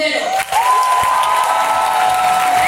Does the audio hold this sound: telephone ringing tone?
no

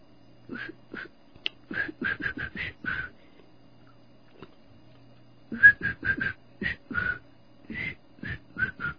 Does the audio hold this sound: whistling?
yes

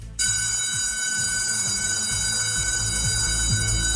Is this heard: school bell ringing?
yes

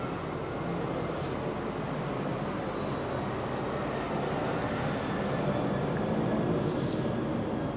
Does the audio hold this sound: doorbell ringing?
no

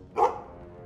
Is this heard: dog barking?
yes

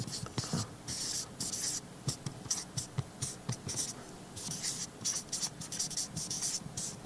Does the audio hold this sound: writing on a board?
yes

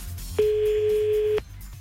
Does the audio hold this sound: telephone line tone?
yes

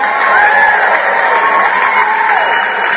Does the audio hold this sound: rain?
no

